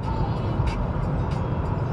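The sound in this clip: Steady road rumble of a car driving on a highway at around 70 on cruise control, a constant low drone at even loudness with faint, regularly spaced hissy ticks above it.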